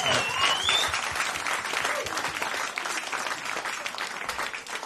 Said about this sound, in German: Applaus für euch. Applaus für euch jetzt.